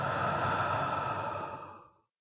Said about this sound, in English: Let's take a deep breath in through the nose and let it out through your mouth.